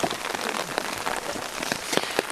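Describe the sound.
Rain patters steadily on a surface in a gorge beside a boardwalk trail. The drops are dense and irregular, a constant wash of small ticks with a few sharper hits throughout. No one speaks.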